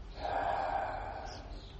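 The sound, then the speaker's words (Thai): A slow, deep breath let out after being held: one faint, steady, airy rush of air lasting almost two seconds, alone with no talk. “หายใจเข้าลึกๆลึกอีกลึกอีกค้างไว้ก่อนคลายออกมา”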